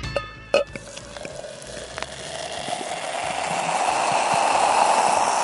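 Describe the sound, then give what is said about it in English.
Elderflower champagne is poured into a first glass, opening with a couple of faint clicks and then a soft hiss of fizz that grows steadily louder. “The sound you hear is the first glass of elderflower champagne being poured.”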